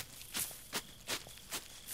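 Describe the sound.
Footsteps of someone running, five soft, evenly spaced thuds in a steady quick rhythm, with nothing else heard.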